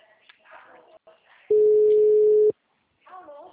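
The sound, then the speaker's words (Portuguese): A single steady telephone busy-tone beep follows a dropped call. It lasts about a second and is fairly loud, with voices talking before and after it. “a ligação caiu?”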